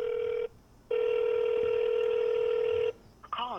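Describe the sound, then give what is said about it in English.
Ringback tone of an outgoing phone call: two steady electronic ring tones, the first cut short, separated by a brief silence, followed by the start of a recorded voice. “Let's call him. Hopefully they're not eating lunch. Here we go.”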